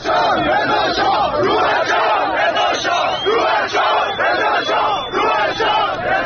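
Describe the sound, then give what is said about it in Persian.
A protest crowd chants in rhythmic, repeated waves at Dastgheib Square in Qom, Iran. Many voices shout together loudly and steadily throughout. “شاید یکی از جاهای دیگه که کمتر انتظارش میرفت باشه تجمع در قم بود. در میدان دستقیب محل اصلی تظاهراتی بود که ما صداش رو داریم.”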